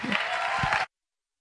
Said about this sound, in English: I always think the loudest applause should be reserved to our Lord Jesus Christ.